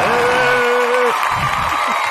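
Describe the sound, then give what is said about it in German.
An audience cheers and applauds loudly. A long sustained whoop rings out at the start over a dense wash of clapping and crowd noise that carries on steadily to the end. “Da mal einen großen Applaus für unsere Frauen auf diesem Planeten.”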